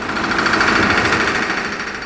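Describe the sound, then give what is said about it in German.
Deafening, continuous rapid knocking of rivet hammers at the Weser shipyard in Bremen during construction of the ocean liner Bremen, a dense, loud metallic rattle that stays steady throughout. “Von den Helligen herüber dröhnt das ohrenbetäubende Klopfen der Niethämmer.”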